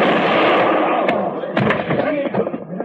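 Gunshots crack during a tense confrontation in an old-time western drama. A few sharp bangs burst out over a steady, noisy background.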